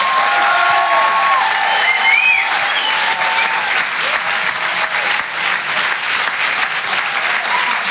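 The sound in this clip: Applause from a comedy club audience fills several seconds, dense, even clapping that holds its level with only slight dips, with light crowd noise mixed in.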